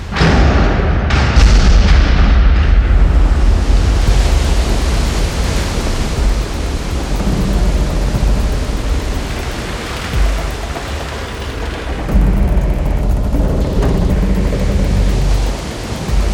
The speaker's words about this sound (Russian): Силой взрыва в его сторону понесло довольно высокую волну